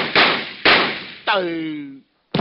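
Gunshots from a homeowner firing at a burglar: four sharp, loud reports about half a second apart, the third followed by a ringing metallic whine that sinks slightly in pitch and breaks off into brief silence before the last shot.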